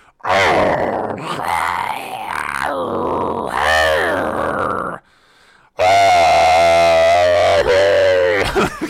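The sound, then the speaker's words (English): A man's voice imitates a scary animal growl: two long, rough, guttural snarls separated by a short pause, loud and raspy, the second deeper and more sustained. “That was me just trying to do a terrifying animal, scary animal noise, but in fact, it's actually a person. I don't know, let's try it again.”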